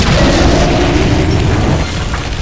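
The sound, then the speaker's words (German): A loud, sustained booming roar from a modified escape pod launching from inside a spaceship, a dense, rumbling blast that holds steady and then eases slightly toward the end. “Was war das? Das war eine Rettungskapsel. Ich wusste gar nicht, wie laut diese Dinger sind.”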